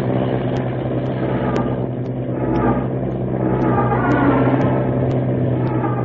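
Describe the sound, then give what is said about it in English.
The Wright brothers' early airplane engine runs at takeoff with a steady, continuous droning rumble and a low hum that stays at an even loudness throughout, with no voices. “Gaining speed now. The plane lurches. Wind tears in a rudder. Orville, stop the motor. Don't try to take off. You'll be killed. She's leaving the ground.”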